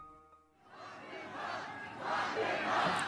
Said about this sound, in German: Was ihr hier hört, ist eine Menge in Arizona, die Donald Trump zuruft: Sperrt ihn ein, sperrt ihn ein.